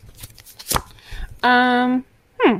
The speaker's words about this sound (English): I mean, if you guys want, I can peel myself a card.